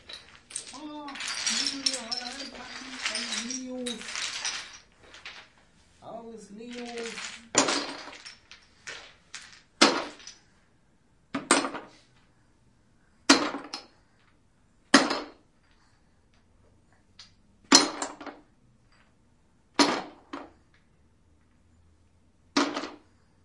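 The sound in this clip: Lego bricks are packed away in sharp bursts of plastic clatter, each separated by pauses. Voices talk at the start, and the clattering continues at a steady pace.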